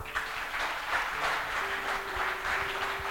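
Steady applause offered in praise of God forms an even wash of claps, with a faint sustained tone running beneath it.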